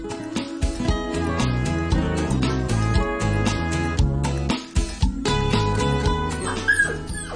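A small puppy, brought back to a pet shop, whimpers and yips: many short, high cries in a busy, continuous run lasting several seconds, with no talk over them.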